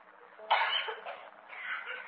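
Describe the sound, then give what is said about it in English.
A small child with an asthmatic condition coughs and chokes: a sharp, harsh cough bursts out, followed by strained, ragged coughing. “causing this poor little thing to cough and hold its breath and choke”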